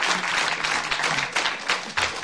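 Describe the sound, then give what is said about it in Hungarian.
Audience applause in the Rádió Kabaré theatre, a dense wash of clapping at moderate loudness with a few brief swells in intensity. “Zúg a taps”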